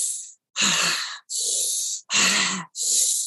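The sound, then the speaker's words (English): Tense breathing through the mouth: five harsh, forceful breaths in quick succession, loud and breathy with short gaps between them, heard alone without talk. “We want an energizing breath, and breathing through the mouth is more energizing, but we don't want a tense breath. Tense breath would look and sound something like this.”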